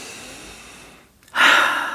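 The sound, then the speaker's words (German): A breathing exercise: a faint nasal inhale, a brief pause, then a louder, breathy exhale through the mouth that carries to the end. “Und dann atme zu Beginn einmal durch die Nase ein, durch den Mund wieder aus.”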